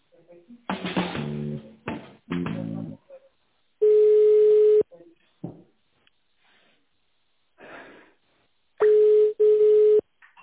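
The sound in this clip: Telephone line tones play while a call is being transferred: two long, steady mid-pitched beeps separated by silence, with short bursts of voice-like sound and clicks between them.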